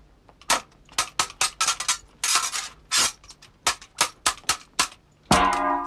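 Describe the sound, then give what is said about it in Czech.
Sharp clanking impacts of a heavy kitchen pan and blows in a tavern scuffle: a rapid, uneven series of loud metallic hits, then one final heavy strike with a ringing metallic tail. “Ta kuchyňská pánev byla pořádně těžká a podomek hospodského měl pádnou ruku. A protože se chtěl tomu vznešenému pánovi zalíbit, třískl mě vší silou.”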